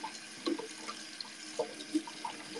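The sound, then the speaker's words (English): Cold water runs from a kitchen tap as hands are washed beneath it: a soft, steady hiss with a few faint splashes and drips breaking through. “So what I want to first do is wash my hands. It has to be very sanitary in the kitchen.”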